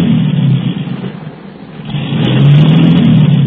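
A car engine revs hard while its wheels sit stuck on branches shoved under a tyre, a loud sustained roar that dips briefly in the middle, then swells back up with a rising whine.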